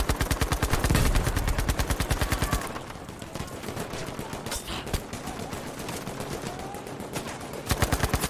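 Rapid automatic gunfire in a video game: a fast, regular burst of shots for about two and a half seconds, a quieter mix of game sounds, then another short burst of rapid fire at the end.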